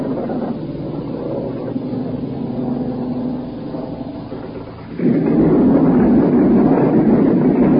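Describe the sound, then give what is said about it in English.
Wartime aircraft pass over ships during a 1944 D-Day attack at sea at night, heard as a dense, steady droning rumble that suddenly swells into a louder, heavier roar about two thirds of the way through. “Here we go again, another plane come over.”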